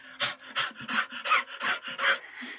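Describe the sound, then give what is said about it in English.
Players in a tabletop roleplaying game imitate quick, rhythmic panting as they breathe fast on a character's face, a rapid series of breathy huffs with no words. “Everyone, breathe on him! Breathe on him faster!”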